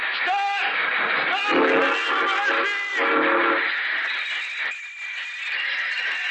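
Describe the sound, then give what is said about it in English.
A train stopping on split rails, with a loud, sustained rushing rumble and high whistle-like tones running through it from start to finish. “Stop the train, I had to stop the train. This time I knew to stop the train.”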